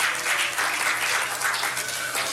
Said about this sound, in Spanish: Dale un aplauso al Señor. Un aplauso al Señor.